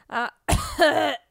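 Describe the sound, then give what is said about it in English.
Throat clearing from a tickle in the throat, blamed on dry indoor air from a running heater: a short, voiced grunt, then a longer, rough, rasping clear of the throat, both fairly loud and alone. “I got a tickle in my throat as soon as I started talking.”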